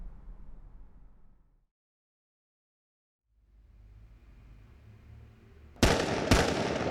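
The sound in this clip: Two sharp gunshots from a handgun fired at a target, loud cracks in quick succession that burst out after a stretch of quiet and a low, steady rumble.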